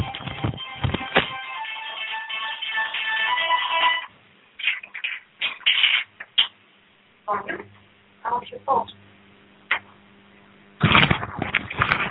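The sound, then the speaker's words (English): A cell phone left behind rings with a steady melodic ringtone for about four seconds. Stretches of talk with pauses and short bursts of sound follow. “Somebody left their cell phone here, and of course they're calling to find out where their cell phone is.”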